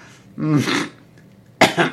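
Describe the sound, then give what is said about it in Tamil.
Coughing: a throaty, voiced burst, then after a short pause a sharp, explosive cough in two quick pulses. “மன்னிக்க வேண்டும், இருமல் தும்மல்லாம் மன்னிக்க வேண்டும்.”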